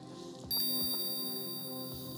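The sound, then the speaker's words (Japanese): A single bell strike during a hypnosis session rings out with a bright, sustained shimmer that hangs and fades slowly over a low steady hum, with no voices. “催眠ベルを聞くたびに体がビクンと跳ね上がる。”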